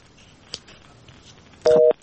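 A short, loud telephone busy-signal tone burst comes after a caller's line drops, appearing near the end over faint background noise.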